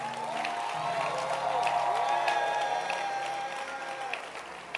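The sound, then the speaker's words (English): Church audience clapping for a girls' band, sustained dense applause mixed with cheering and whoops, holding steady throughout. “But let's clap our hands on McCaffrey. A great blessing. And as you clap your hands, let's appreciate the girls' band.”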